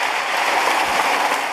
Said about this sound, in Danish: Det er ikke et regnskyld, det er klapsalver. Det er en klapsalver.